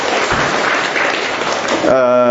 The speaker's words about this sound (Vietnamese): Rồi chúng ta cho một tràng pháo tay nữa thưa anh chị em.